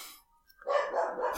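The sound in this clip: A dog barks in a home setting with a phone nearby: after a near-silent gap, a rough, fairly loud burst of barking with a whining edge runs on to the end.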